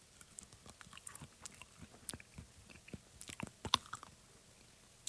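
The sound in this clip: Someone chewing a piece of mango, with faint, irregular wet crunches and clicks scattered through the quiet and no talking.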